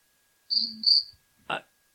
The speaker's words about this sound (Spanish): Suena un grillo ahí.